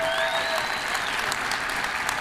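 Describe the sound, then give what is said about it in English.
Applause from a church audience during a sermon, a steady wash of clapping that holds at an even level for the whole moment without rising or fading. “That felt like a golf clap. I mean, come on. Thank you.”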